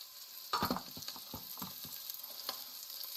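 Food including potatoes is tipped into a hot pot and sizzles: a sudden crackling burst with a few clattering knocks, settling into a steady hiss with scattered pops and stirring sounds.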